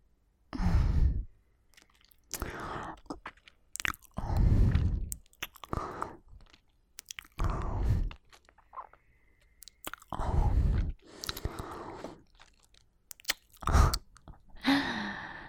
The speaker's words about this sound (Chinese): 你在跟我说话之前，是不是还自己偷偷吃了什么口香糖之类的？